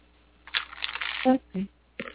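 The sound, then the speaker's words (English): A deck of cards is shuffled in a short rustling riffle, followed by a few brief vocal sounds. “I am shuffling now. Let me know when to stop.”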